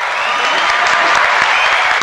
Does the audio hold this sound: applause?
yes